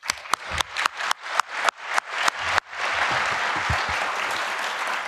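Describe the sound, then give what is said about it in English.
Audience applause at a speaker event begins as nine sharp, evenly spaced single claps in a slow rhythm. Then it breaks into sustained, full applause that continues at a steady level to the end. “Big applause for him.”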